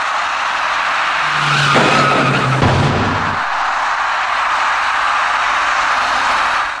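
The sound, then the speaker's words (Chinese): A car's tires skid loudly at a road intersection as it collides with an electric bicycle, a harsh sustained screech over broad road noise, with a low droning tone through the middle of the skid. “一辆粉色小客车跟一位电动自行车的骑车人发生了严重相撞后，一起甩进路口里面。”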